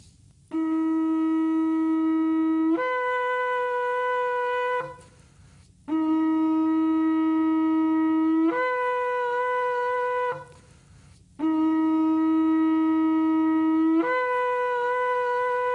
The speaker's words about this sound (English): This is one long straight blast called tekiah. This is the first blast of the traditional blowing of the shofar during Yom Teruah.